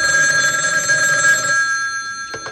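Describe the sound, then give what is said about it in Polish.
An old-style telephone bell rings loudly in a 1975 comedy sketch, a continuous bright metallic trill that cuts off partway through and rings down, followed by a brief knock. “Sprawdźmy, kto dzwoni.”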